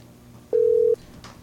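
A telephone busy tone after a dropped call: a single steady mid-pitched beep lasting under half a second, clearly louder than the faint low hum and quiet background around it.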